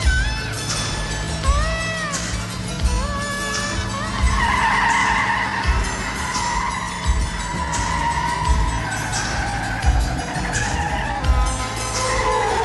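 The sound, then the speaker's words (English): Tires squealing as a taxi turns into a parking garage, several high, drawn-out screeches over a continuous engine rumble. “He turns into a parking garage.”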